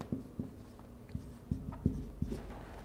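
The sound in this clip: Faint pen-on-paper writing on a Bible study handout, heard as a few soft, scattered taps and strokes with quiet pauses between them.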